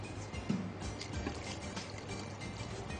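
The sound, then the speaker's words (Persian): Water is poured into a cooking pot of meat, onion and saffron stirred with tomato paste, giving a steady, soft rushing splash that stays even throughout. “حالا یه مقداری آب اضافه میکنیم”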